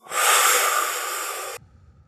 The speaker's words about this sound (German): Durch die Nase einatmen. Kleinen Moment anhalten.